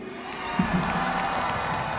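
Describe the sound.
A concert crowd in Xalapa applauding and cheering to honor a singer's father, a fairly soft, even blend of clapping and shouts that carries on throughout.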